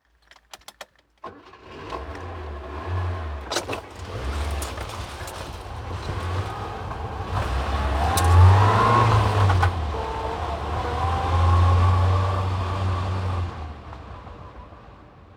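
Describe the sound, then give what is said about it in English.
A car driving: a steady, low engine rumble swells and eases a couple of times over about fifteen seconds. A few sharp clicks come right at the start, and no voices are heard. “じゃあ、車を運転してみようね。Everybody, drive a car.”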